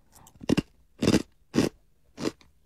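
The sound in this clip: Kaki no tane rice crackers mixed with peanuts, a spicy flavour, crunch loudly in the mouth: a few small crackles, then four distinct crisp bites spaced apart, with quieter chewing between them and no talk.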